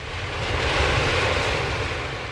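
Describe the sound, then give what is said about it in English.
A small aeroplane flying in terrible weather gives a loud, steady engine drone with a broad rushing roar, unbroken and even throughout, with no voices. “An aeroplane.”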